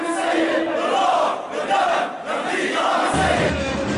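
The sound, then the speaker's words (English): Crowd chanting and shouting in the streets of Homs during a tribute to journalists killed there, a loud mass of voices that swells and dips rhythmically and continues throughout. “This is the sound of a tribute to the killed journalists this week in the streets of Homs.”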